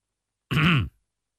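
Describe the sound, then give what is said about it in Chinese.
A voice imitates a single light cough, a brief throaty, grunt-like clearing of the throat that sounds once on its own and stops. “燕青轻轻咳嗽了一声”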